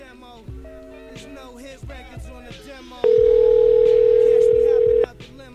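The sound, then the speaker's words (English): A steady telephone dial tone on a call placed from a dialing machine, loud and unbroken for about two seconds, following a stretch of voices. “I'm just going to call from the other dialing machine, because that sounded really quiet”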